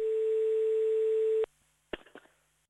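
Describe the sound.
A telephone ringback tone sounds while a call is placed, one steady, even tone lasting about a second and a half before cutting off, followed by a few faint clicks.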